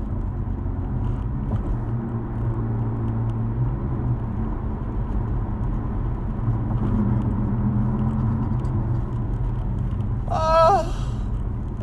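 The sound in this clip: Engine rumble inside a car: a steady, continuous low drone that runs unchanged through the whole clip, broken only by a brief higher-pitched sound near the end.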